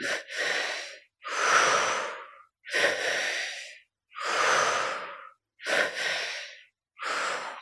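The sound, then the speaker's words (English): Rhythmic paced breathing draws air into the belly and then the chest before pushing it out through the mouth. Six loud, airy breaths come in a steady rhythm, each separated by a short silence. “So we're breathing the energy into the belly first, up into the chest, and out through the mouth. So the pacing is a little bit like this.”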